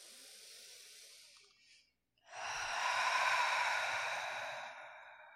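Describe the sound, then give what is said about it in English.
A deep breath taken in and let out during a group breathing exercise: a soft, airy inhale, a brief silence, then a longer, louder sighing exhale that fades away. “I would like the listeners to do this with us as well. So let's do one breath.”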